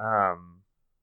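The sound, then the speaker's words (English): A cat yells with a single loud, tonal meow that falls in pitch and fades out quickly, heard alone. “that is a cat. That is a cat yelling at us.”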